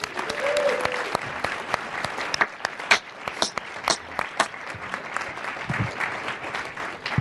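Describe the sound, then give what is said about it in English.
Dense audience applause welcomes a speaker at a Planetary Society event, a steady patter of many hands clapping that holds at a fairly even level for several seconds, with sharper individual claps popping out above the wash. “First, though, please give a warm welcome to the Planetary Society's senior editor and planetary evangelist, Emily Lakdawalla.”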